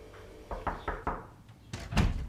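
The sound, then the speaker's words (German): A door being opened to a child's bedroom: a faint run of soft clunks and knocks from the latch and panel, ending in a couple of slightly louder thumps. “Miriam öffnet die Tür zu Elis Zimmer.”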